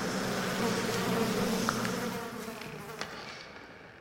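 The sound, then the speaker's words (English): A swarm of insects drones in a low, steady, faint buzz that thins out toward the end, with a few small clicks. “And when the cloud fades, there's a satyr-like shape in the shadows for a moment. And then just breaks apart into a pile of bugs.”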